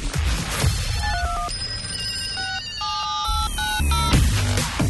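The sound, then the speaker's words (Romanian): Electronic telephone ringtone signalling an incoming call to a radio studio, a run of bright, steady beeping tones in short stepped phrases, heard over a continuous low, rumbling background. “Hai să luăm un telefon, să ne întrebe. Da, numai un telefon luăm.”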